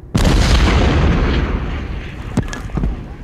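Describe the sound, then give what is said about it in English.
An artillery shell explodes right in front of a van: one sudden heavy boom opens into a long rumble that fades slowly, with a few sharp cracks and debris hits near the end. “So you're getting closer and closer to this building as an artillery shell hits right in front of the van.”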